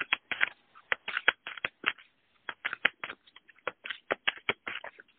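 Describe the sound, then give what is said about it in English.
Tarot cards are shuffled during a reading and scatter everywhere, giving many quick, crisp papery snaps and flicks in uneven bursts with brief pauses. The sound is quiet and there is no talk. “So the cards just went flying everywhere.”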